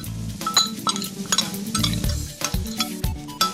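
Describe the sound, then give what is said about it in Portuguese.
A spoon stirring oat flakes and milk together in a bowl, a continuous wet scraping broken by light clinks of the spoon against the bowl. “Misturem tudo muito bem com uma colher, mas devagarinho, para tudo ficar dentro da tigela. Está tudo bem misturado? Certeza? Misturem só mais um bocadinho.”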